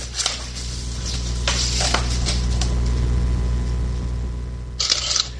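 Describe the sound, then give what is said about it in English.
A document scanner scanning a page: a constant low motor hum, broken by a few short mechanical clicks and whirring bursts, the last one near the end. “And now, 5 seconds later, it's going to scan the next page.”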